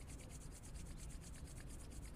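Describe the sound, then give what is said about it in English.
Hands rubbing together briskly to warm them, a soft, steady dry friction that continues unbroken and fairly quiet throughout. “Rub your hands together, get them nice and warm.”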